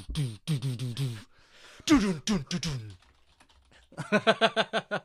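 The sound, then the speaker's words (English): Fast typing on a computer keyboard, a dense burst of many crisp keystroke clicks near the end, following a stretch of people talking. “there's a lot of keyboard stuff, isn't there?”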